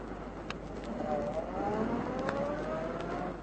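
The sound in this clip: An old car, a worn-out heap, is driven away, its engine droning steadily with a faint whine that rises in pitch as it pulls off.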